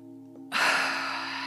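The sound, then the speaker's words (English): A big, deep breath rushes in suddenly after a moment of quiet hum. It is loud at first, then eases off gradually while staying airy and steady to the end. “we can stretch out and breathe big, get really expansive,”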